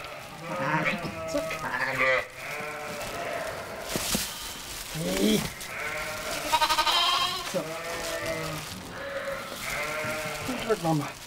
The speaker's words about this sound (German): Das erste Lamm ist schon da.